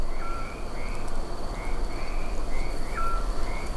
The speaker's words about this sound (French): Et le son régulier, plus aigu que vous entendez, c'est celui du crapaud.